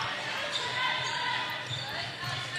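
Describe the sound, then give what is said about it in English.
A basketball is dribbled during a women's game involving Cushing, a few faint bounces buried in continuous crowd noise. “She'll dribble back up. A lot of dribble handoff offense coming from Cushing.”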